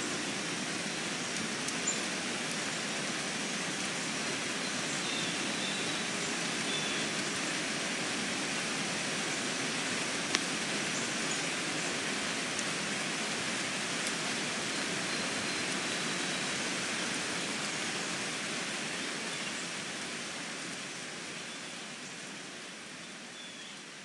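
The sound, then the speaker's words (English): Early morning rain falling outdoors, a soft, even hiss of steady rainfall that continues unbroken for the whole stretch with no voices. “I was going to record outside today, but here comes an early morning rain.”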